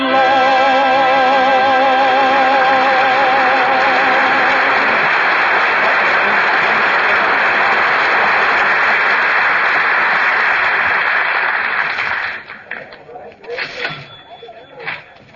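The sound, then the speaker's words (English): A noisy crowd of people, with children and Christmas carol music, forms a dense, steady wash of loud murmur with sustained tones for about twelve seconds, then thins abruptly into scattered, quieter sounds. “Boy, what a crowd.”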